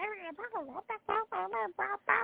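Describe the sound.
A voice imitating a flock of 2,000 chickens clucking: a rapid, choppy run of nasal, quacking squawks that waver in pitch, loud and close, with short gaps between bursts.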